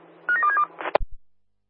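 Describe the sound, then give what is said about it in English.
Telephone dialing tones on a SpaceX launch communications line: a few quick, steady mid-pitched keypad beeps run together, followed by a short burst of hiss, a sharp click and a couple of low thumps before silence. “Do you want to give me a call, man? Dialing now.”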